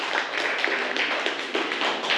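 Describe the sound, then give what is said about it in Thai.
Students in a classroom clap for themselves: a steady run of quick, rhythmic claps at moderate loudness, with no talk. “นักเรียนเก่งมากวันนี้ปรบมือให้ตัวเองอีกครั้งหนึ่งค่ะ”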